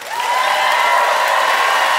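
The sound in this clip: A debate audience in Halifax applauds and cheers to cast a vote, loud and continuous from start to finish, with a sustained whoop rising above the clapping.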